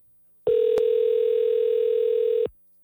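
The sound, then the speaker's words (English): An outgoing telephone call ringing out, heard as one loud, steady ring tone lasting about two seconds with a short click near its start, alone and clean. “We will call him twice, and then we'll give up.”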